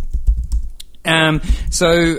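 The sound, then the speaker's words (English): Quick clicking of keys as a web search is typed on a computer keyboard, a rapid run of light taps for about a second, followed by people talking. “if you can just type into your Google search, policeman wears coronavirus helmet.”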